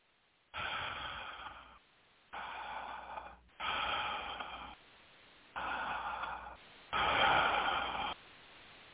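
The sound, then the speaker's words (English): Heavy breathing, with five loud, breathy rushes of air, each lasting about one to two seconds and separated by short, quieter pauses. “It is the breath.”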